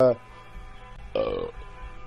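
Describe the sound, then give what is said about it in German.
A deep, rasping burp belched straight into a microphone, loud and short, with a brief scrap of another sound at the very start. “Das war wohl das Bier. Wie kann man denn nur so ekelhaft sein? Sorry, aber muss man denn wirklich auf Ernst die ganze Zeit in dein Mikro rülpsen?”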